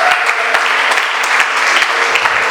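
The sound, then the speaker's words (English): Audience applause greets a pastor at a revival conference: dense, steady clapping from many hands that stays loud and unbroken for the whole stretch. “Can we all put our hands together and welcome Pastor Priji.”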